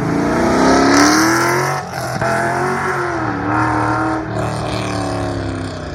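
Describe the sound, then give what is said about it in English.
A healthy Pontiac GTO engine revs in a loud, deep, throaty rumble. Its pitch swells and dips a few times, with brief drops in level between revs. “Here is the sound of that very healthy Pontiac GTO.”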